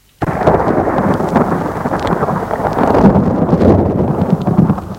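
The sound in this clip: A thunderstorm late at night, with a steady, loud roar of rain and a deep rumble of thunder that swells slightly midway and continues unbroken for several seconds, with no voices.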